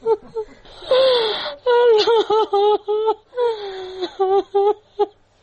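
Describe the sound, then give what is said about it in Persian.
A grieving mother cries in Kabul for her two daughters killed in a bombing. Her voice breaks into several wavering wails and sobbing cries, with short gasping breaks between them. “این صدای گریه مادر نگینه و زحل”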